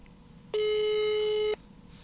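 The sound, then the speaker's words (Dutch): A single ringback tone from a telephone call on speakerphone: one steady, hollow beep lasting about a second, sounding alone over a low background hiss. “Nou, we gaan hem nu bellen, hij staat op luidspreker.”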